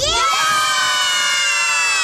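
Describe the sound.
A group of more than ten children at a festival shout a reply together, one loud, sustained, bright burst of voices that holds steady for the whole moment.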